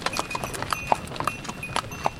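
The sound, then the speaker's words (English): Horse hooves clip-clop steadily as the animal pulls a cart carrying woodcutters up into the mountains, with many sharp, slightly uneven knocks in a loose walking rhythm over a faint background hiss. “Mitko Dimitrov and his crew of woodcutters as they commuted to work up into the mountains on a horse-drawn cart”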